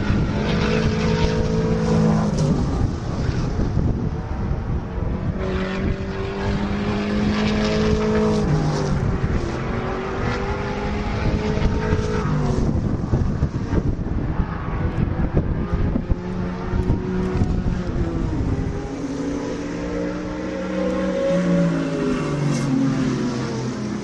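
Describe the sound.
Racing cars roaring past, vintage race cars including Porsche 911s from 1972 to 1989 and a 1973 Datsun, as a loud continuous engine drone whose harmonics shift up and down as cars pass, with no talk.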